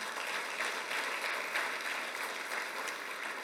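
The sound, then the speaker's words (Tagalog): Dense, steady applause from a church audience clapping in praise of the Lord during a sermon, even in loudness throughout with no voices over it. “Palakpakan natin ang ating Panginoon.”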